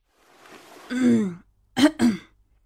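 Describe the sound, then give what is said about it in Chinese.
A man coughs lightly behind his hand: a drawn-out, voiced clearing of the throat, then two short, sharp coughs in quick succession, with no talk. “他掩了唇，咳嗽了几声。”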